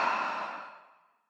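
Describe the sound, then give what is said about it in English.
A single deep breath let out during a tapping relaxation exercise, heard as a soft, airy exhale that fades steadily to silence after about a second, with no talk. “And again, deep breath. Letting out all that old energy.”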